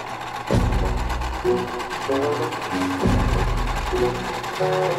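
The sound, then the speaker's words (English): A sewing machine stitches quilt fabric with a steady mechanical whir and rapid needle chatter. It runs in several connected bursts, with short hitches and restarts between stretches of stitching. “I Admit It, I Sew Quilts.”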